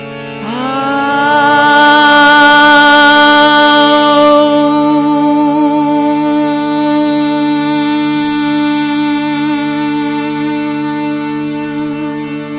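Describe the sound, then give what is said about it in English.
One voice sings a single held note in one breath, moving smoothly from an open ah to oo to a hummed mm at a steady pitch. The tone is loud and rich, easing slightly toward the end. “So we'll sing ah, oo, mm in one breath. So we'll spend an equal amount of time on each of the three sounds, making a nice smooth transition between each sound.”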